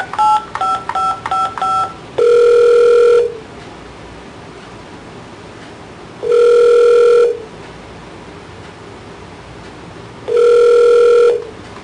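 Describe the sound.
Telephone keypad dialing tones: a quick run of six short beeps, followed by three longer, lower steady tones repeating at even intervals with quiet line noise between them, no talking.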